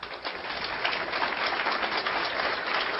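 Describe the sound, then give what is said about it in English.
An audience gives a warm round of applause welcoming the next speaker at an event, with dense, even clapping that holds steady without a break. “please help me give a warm hand of welcome to our next speaker, Captain Joyce Riley.”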